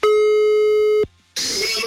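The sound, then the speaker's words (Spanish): A telephone line tone sounds while a call is dialed: one steady, loud, buzzing tone for about a second, then a short silence and a brief burst of harsh, hissing noise. “Marcamos entonces en este preciso momento.”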